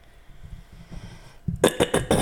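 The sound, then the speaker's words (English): A person clears their throat in a quick series of short, raspy bursts that follow a soft, low murmur. “Just clear the old throat.”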